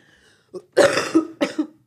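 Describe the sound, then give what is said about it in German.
A person coughing: a brief catch, then two harsh, raspy coughs in quick succession, fairly loud and with no other sound around them. “Warte, ich muss husten auch noch.”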